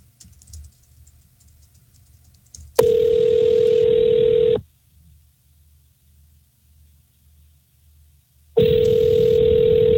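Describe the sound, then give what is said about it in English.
Telephone line tone on an outgoing call to a law office: two loud, steady, even tones of about two seconds each, separated by roughly four seconds of near silence with faint low background noise and no voices. “Do I have to put a 1 in front of this, Charlie, when I dial out?”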